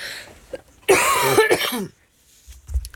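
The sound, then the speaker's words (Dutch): A cough in a radio studio: one loud, rasping burst with a throat-clearing quality, heard alone with no talk, preceded by a faint click and followed by quiet. “ja, ik moet eigenlijk een kuchknop gebruiken in zo'n geval, maar ik kan hem niet zo gauw vinden hier in de studio. Nogmaals, excuses.”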